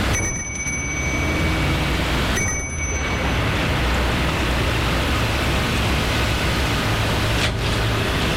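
A doorbell rings at a house: two short, bright metallic rings a couple of seconds apart, over a constant loud hiss.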